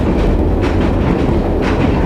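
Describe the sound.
A train runs on rails as it nears Manzhouli, giving a loud, steady low rumble with a faint rhythmic clatter of wheels over track joints. No voices are heard.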